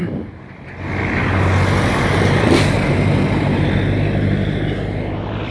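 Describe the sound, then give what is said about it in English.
A street bus carrying factory workers passes by, its loud low engine and road noise swelling after the first second and then holding as a steady roar. “One of the buses that carries the factory workers to the factory just passed by”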